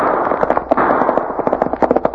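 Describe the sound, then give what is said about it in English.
Gunfire rattles through a gun battle, with many rapid, sharp shots crackling over a dense, noisy bed of sound. The reports pile up irregularly and loudly, with no voices. “That sounds like a regular gun battle.”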